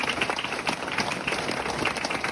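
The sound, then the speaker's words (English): Soft, continuous audience clapping at an award ceremony for young people, with many hands patting in a quick, uneven texture that holds at a fairly low level throughout. “Please give another round of applause for all our inspiring, deadly young people up here today.”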